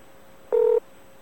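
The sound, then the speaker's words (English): A single dialing tone from a phone's voice-dialing system: one clear, steady beep about a quarter second long, alone over faint hiss. “Dialing.”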